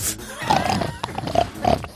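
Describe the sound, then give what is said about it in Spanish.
Pig grunting, a few short, rough nasal grunts in irregular bursts, moderately loud and with no other sounds. “Comenzamos con ese cerdo.”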